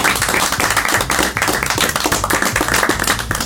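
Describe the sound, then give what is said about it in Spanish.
A group of people gives loud applause to welcome a guest, with dense, fast clapping that continues steadily from start to end at a strong, even level. “Un aplauso para Nicolás Alonso.”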